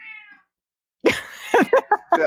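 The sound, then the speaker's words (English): A cat meows several times: a faint, high-pitched call at first, then after a pause a run of short, louder cries. “That's the cat.”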